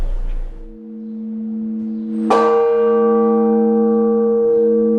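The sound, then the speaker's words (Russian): A church bell rings the Blagovest during a quarantine period. The fading hum of an earlier stroke gives way to one heavy, bright strike that rings on in a long, sustained, humming tone. “Благовест будет звучать до окончания срока карантина.”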